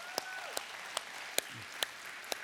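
Faint, scattered hand claps from a church audience welcoming people at other campuses and viewers online. A few separate sharp claps stand over a soft, continuous wash of background noise.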